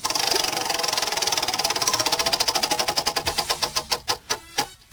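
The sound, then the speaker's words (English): Rapid clicking of a spinning topic wheel: dense ratcheting ticks that gradually slow and spread apart as the wheel winds down to a stop, with no talking. “I'm going to spin the wheel of topics right now.”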